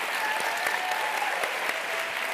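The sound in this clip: Audience applause for SpaceX's Gwynne Shotwell: a steady, dense wash of clapping hands that holds at an even loudness for the whole clip, with no voices rising above it.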